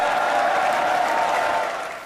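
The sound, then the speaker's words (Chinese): Ground crew at a Starship mission control cheering and applauding as the spacecraft reaches orbit and deploys satellites: a steady wash of crowd clapping and cheers that holds level for about two seconds, then tapers off. “地面人员爆发出热烈欢呼”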